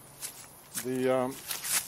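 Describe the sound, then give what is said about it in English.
Soft rustling and brushing of a mosquito net being pulled closed to keep out flies and insects, a few quiet fabric swishes spread across the moment, with a brief low voiced murmur in the middle. “I'm gonna close here. It's because it's full of flies and insects. I'm going to close the mozzie thing here.”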